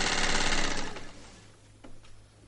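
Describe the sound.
A woman sews, absorbed in her work. A steady whirring is fairly loud for under a second, then fades to a quieter hum with a few faint clicks.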